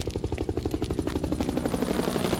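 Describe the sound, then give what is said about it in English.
A helicopter flies overhead with a steady rhythmic chop from its rotor blades. The thumping pulses are loud and regular and hold at a constant level throughout, with no voices. “A helicopter. Must be the police again.”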